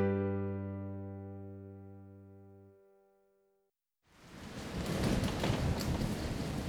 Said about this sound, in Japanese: 嵐はますます強くなり